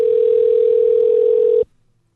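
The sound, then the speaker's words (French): A telephone dial tone sounds as a call is placed: one steady, loud, unbroken tone at a single pitch that holds for about a second and a half, then cuts off abruptly into near silence. “Allez, petit coup de fil.”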